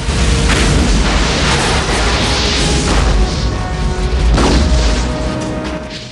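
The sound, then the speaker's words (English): Explosions go off around an oil plant in a loud, continuous, deep rumbling roar, with a few heavier booming bursts rising out of the din. “Explosions are happening all around the oil plant.”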